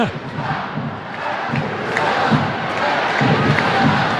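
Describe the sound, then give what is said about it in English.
Stadium crowd at a professional women's soccer match, Angel City against Gotham: a loud, continuous roar of many voices with shouting, swelling slightly and staying dense throughout. “And the crowd commenting on referee Gerald Flores' socks, unless I heard that wrong.”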